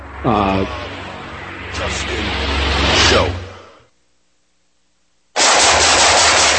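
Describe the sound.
Loud, rapid gunfire crackles in two sustained stretches of shooting separated by a silent pause. A brief voice is heard near the start.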